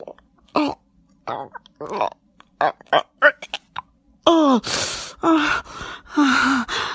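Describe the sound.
A woman gagging: a series of throaty choking and retching sounds, short uneven bursts at first, then longer, louder strained gasps and gurgles near the end.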